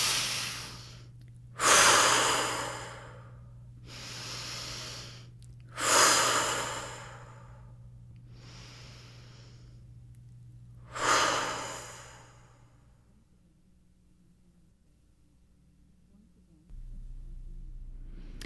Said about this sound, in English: And now shaking out the arms and taking a few deep breaths, really letting the tension out with the exhale.